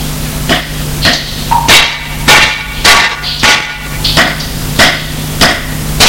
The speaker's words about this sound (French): et déchausse et lui donne ses brodequins. Il prend et tape sur la trappe. Il tape le plus fort qu'il peut.